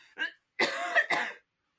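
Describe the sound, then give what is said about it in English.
Coughing from someone who has choked on their own saliva: a few harsh, raspy coughs and throat-clearing bursts, the later ones longer and louder, then silence. “I choked on my own saliva.”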